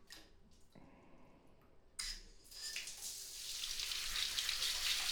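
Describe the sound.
Water is poured over hair to rinse it. It starts with a sudden splash, then builds into a steady, hissing flow that grows louder toward the end, over a quiet background.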